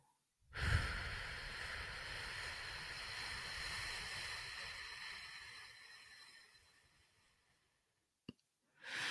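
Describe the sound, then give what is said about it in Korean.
A long, soft breath drawn in and let out during a yoga practice: one sustained airy rush lasting several seconds that slowly fades away, then a brief click as another breath begins. “다시 한번 호흡을 길게 들여 마시고, 내쉬고,”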